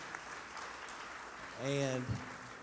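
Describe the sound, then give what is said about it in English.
Steady audience applause welcomes a guest at a panel discussion on raising families, an even clapping texture throughout, with a voice briefly rising above it. “Would you give her a hand and welcome her today?”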